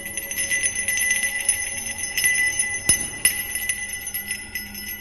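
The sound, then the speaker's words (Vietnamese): A bronze bell, a family heirloom, jingles and rings in many quick, bright, high-pitched strikes over sustained metallic overtones, rattling steadily throughout. “Gia Huy ở gần đó đã nhanh trí lôi cái chuông đồng, bảo vật của gia tộc”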